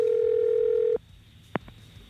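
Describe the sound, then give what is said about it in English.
Telephone dial tone heard before a call is placed in a phone-in game: a loud, steady, even-pitched tone holds for about a second and then cuts off, followed by quiet line hiss and a single brief click. “Let's dial Emma. I hope they pick up.”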